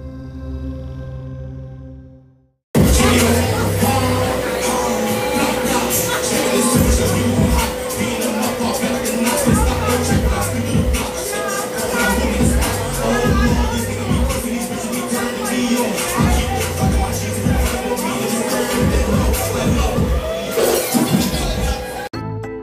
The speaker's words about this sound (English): You were just listening to was a little live snippet that I took while at one of DJ Ace's events.